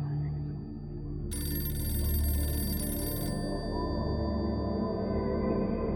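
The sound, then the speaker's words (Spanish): A telephone rings in a room: a single bright, trilling ring lasting about two seconds over a low, steady background. “Cuando de pronto el teléfono se dejó escuchar en su habitación.”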